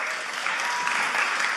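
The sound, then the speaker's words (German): Applause from an audience at a sermon, a steady, dense wash of clapping that holds at an even level throughout, with no voices over it. “come on, Applaus.”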